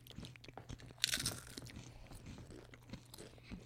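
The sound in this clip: Crunching on tangy ketchup-flavoured Doritos chips: one sharp crunchy bite, then a run of softer chewing crunches, all faint and with no talking.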